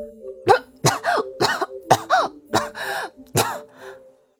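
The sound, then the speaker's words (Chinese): A child coughs after choking on a mouthful of tea. The coughs come as a rapid series of harsh, throaty bursts with a voiced edge, then trail off into quieter breaths at the end. “让茶水呛了一口，小拳头捶着胸口直咳嗽”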